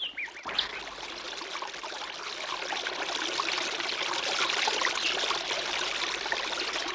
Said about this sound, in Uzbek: Abduazim ariqqa tosh tashlaydi. Shitob bilan oqayotgan suv yo'lini to'sib, sharshara hosil bo'ladi.